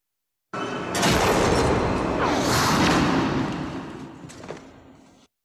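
A gunshot from a film scene in which a man is shot in the head: a sharp burst rises out of a noisy swell, then a roaring wash fades slowly, with one more brief crack near the end.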